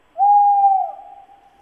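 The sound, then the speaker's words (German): A tawny owl gives a single loud, steady hoot on one held pitch, which then trails off into a fainter, wavering tail. “Ein neues Geräusch. Das würde mir nachts im Wald einen Schauer über den Rücken schicken. Der Waldkauz.”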